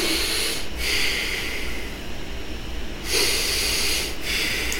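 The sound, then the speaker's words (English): Human breathing, loud and close, in a few long airy breaths with a nasal, snorting quality, the inhales and exhales alternating at a slow, even pace with no talk. “Guys, humans have to, like, breathe. Like, we have to be, like,”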